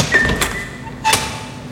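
A door into a pasta factory's production hall opens and closes, making two short, muffled bumps about a second apart over a steady background hum.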